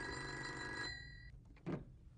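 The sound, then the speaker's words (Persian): A telephone bell rings in one steady, bright, buzzing ring that cuts off abruptly, followed by a soft thump. “گفتم که یا مزاحم بوده یا اشتباه کرده، و الا دوباره زنگ میزنه.”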